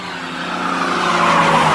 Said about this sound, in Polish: Komandor solidnie docisnął pedał gazu. Strzałka prędkościomierza poszybowała w górę i odtąd utrzymywała się w rejonach 100 mil na godzinę. Wspaniały, zielony samochodzik z upiornym wyciem silnika pochłaniał kolejne kilometry.